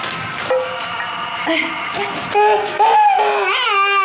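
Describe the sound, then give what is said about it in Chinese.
A baby cries in sustained, wavering high-pitched wails, steady at first and growing louder toward the end. “哎呀，不哭了，不哭了，不哭了！哎呀，不哭了，不哭了啊！”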